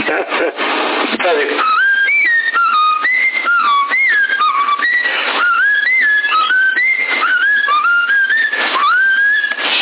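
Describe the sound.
A person whistles a TV theme tune over a crackly, band-limited CB radio transmission. The bright melody hops between notes in short phrases, with voices talking at times beneath the hiss.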